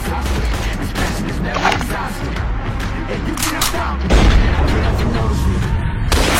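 Gunfire from the PUBG Mobile mobile game: dense, rapid bursts of shots and thuds run through the whole stretch and grow heavier and louder partway through.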